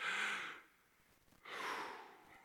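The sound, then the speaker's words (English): A single deep breath: a soft, airy inhale, a short pause, then a longer, breathy exhale. Both are faint, with no talk. “I want us to all take a breath.”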